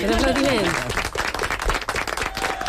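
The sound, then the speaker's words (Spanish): Applause from students in a music class, rewarding a basic scale-singing exercise; a voice rings out at the start, then brisk, uneven clapping carries on for the rest of the short clip. “un aplaudiment”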